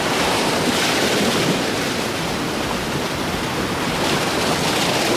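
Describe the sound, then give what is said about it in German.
Waves wash onto a beach during a holiday, making a continuous broad roar of surf mixed with wind rustle. The level stays steady throughout with no voices. “Ich habe in Urlaub an Sie gedacht, meine Damen und Herren, und die Aufnahme dort am Strand direkt begonnen.”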